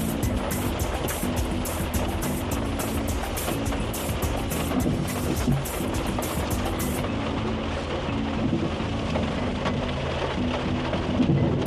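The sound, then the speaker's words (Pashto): Heavy rain pours down in Dallas, Texas, a dense, steady hiss of drops beating on surfaces with a deep low rumble running underneath throughout. “عزیزانو داسې شدید باران دی کله ډېر زیات شي کله کم شي درنو لیدونکو د ټکساس ایالت په خاصه توګه د دالاس ښار دغه هوا نه ده”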